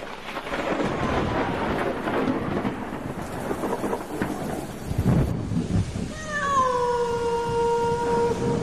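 Steady rain pours outside a run-down house during a storm, with a deep rumble of thunder near the middle, followed by long, wailing, falling tones like a cat yowling over the rain.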